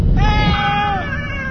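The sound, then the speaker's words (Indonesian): Cats meowing in a yard where many have gathered: a long, drawn-out, wavering meow with a bright, nasal tone sounds over steady background noise. “Astaga, kucing-kucing itu banyak sekali, berada di halaman dan mengeong-ngeong.”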